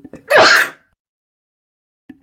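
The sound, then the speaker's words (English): A single loud, bursting sneeze from a person, preceded by a brief sharp intake of breath and followed by near silence. “Sorry about the sneeze”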